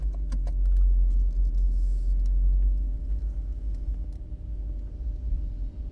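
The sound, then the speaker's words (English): Steady low engine and road rumble from a car driving back to a hotel along the coast, a constant deep drone with faint scattered clicks above it and no voices. “You just sit there while we drive back to the hotel.”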